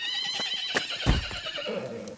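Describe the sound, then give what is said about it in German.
A horse whinnies in a long, high, quavering neigh, with a few dull hoof thumps underneath. “Sofort will er auf dem Pferd reiten.”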